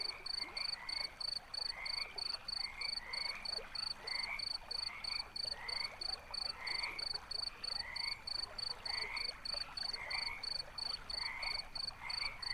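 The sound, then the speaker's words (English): Frogs croaking in a forest at night, a dense rhythmic chorus of many repeated, evenly paced calls that continue steadily throughout with no voices. “The sounds of the forest at night are all around you.”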